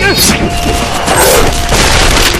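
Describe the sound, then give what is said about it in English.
A booming explosion from an exploding star knife thrown in a fight scene, a loud, dense blast that rumbles continuously for about two seconds. “An exploding star knife will take care of that!”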